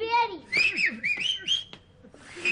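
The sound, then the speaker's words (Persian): Someone whistles a quick run of bright, high, sliding notes in short bursts, with brief gaps between phrases. “ببین چه سوتایی میزنه، خیلی باحاله.”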